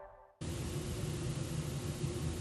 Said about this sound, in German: Dieses Rauschen ist das ARD-Studio in London.